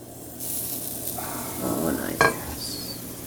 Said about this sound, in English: Can you hear the sizzle of this?